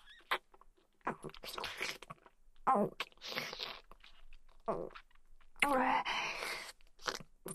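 A large mouthful of food is chewed in a steady run of wet crunches and bites. It is fairly faint, with a few muffled vocal sounds mixed in.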